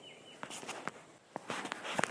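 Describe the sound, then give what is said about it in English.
Quick footsteps of someone hiking fast on the Upper Prairie Branch Loop Trail in Huntsville State Park, a faint, uneven series of crunching steps with a brief bird chirp at the start. “I'm not used to walking this fast, you guys.”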